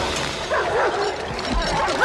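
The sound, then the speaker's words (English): Pit bull dogs on chains bark and yip as they strain against their restraints, giving a burst of sharp, excited calls over a rough, noisy background. “A pit bull on a chain charges Babe. The dog is brought up short by the chain.”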